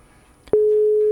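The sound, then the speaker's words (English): A telephone ringing tone from a European ringing device: a soft click is followed by a single steady, pure mid-pitched tone that starts abruptly and holds unbroken to the end. “Right here on this, really boring European ringing device.”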